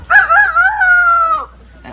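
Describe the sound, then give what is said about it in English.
A person imitates a rooster crowing, giving one loud, drawn-out cock-a-doodle-doo with a wavering, strained pitch that drops away at the end. “Yeah, that's good. It's a rooster.”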